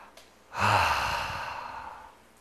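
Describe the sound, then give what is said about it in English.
A single deep breath, drawn during a quiet moment of prayerful rest, swells into a long, loud, airy exhale that fades slowly over about a second and a half, heard alone with no talking. “I take a deep breath. Let's try it.”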